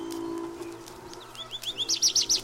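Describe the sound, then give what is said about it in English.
Spring birdsong: a rapid series of high, clear chirping notes that grows louder toward the end, following a stretch of low, steady background hum. “It is spring. The birds have been in full song. Woods and fields, roads, gardens and shade trees resound with their music.”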